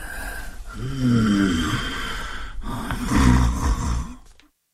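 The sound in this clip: A sleeping person snoring, with two slow, rumbling, raspy snores that swell and fade. The snoring is moderately loud and heard alone, then drops to silence at the end.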